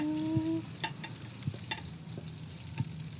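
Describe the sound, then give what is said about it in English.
Cooked eggs are scooped from a hot pan onto a plate: a few soft scrapes and taps of the utensil sound over a faint, steady sizzle. “your eggs are ready. I'm going to call your eggs ready. All right. You want to hold that plate while I scoop?”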